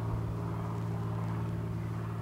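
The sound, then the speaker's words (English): Steady low droning engine rumble of an airplane flying to or from an airport, holding an even level throughout with no voices. “That's a plane going to the airport, I believe, coming from it once.”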